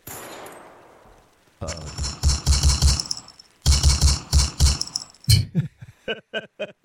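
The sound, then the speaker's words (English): Gunfire from a weapon: two rapid, loud bursts of repeated shots, then a handful of separate single shots that fade in force toward the end. “Forgive me while I fire off my weapon.”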